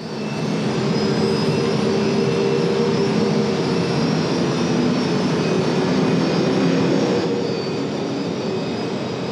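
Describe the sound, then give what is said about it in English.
A sci-fi rebel spacecraft engine warming up, heard as a steady, broad, roaring rumble with faint sustained tones on top. It holds at an even, loud level throughout. “Let's start with the Rebel spacecraft warm-up.”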